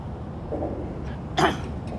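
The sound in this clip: A single brief throat clearing, a short, rough burst that stands out faintly over a low, steady background hum.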